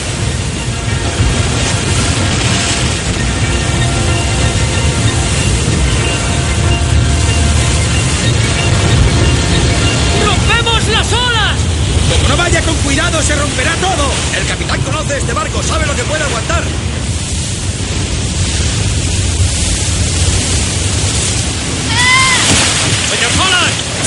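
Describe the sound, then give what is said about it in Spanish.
Roaring wind and surging, sloshing waves as a sailing ship heels over in a storm at sea. The stormy wash stays loud and constant throughout, with voices heard at times over the noise. “El capitán observa con su catalejo a la Acheron que se escora por efecto del temporal.”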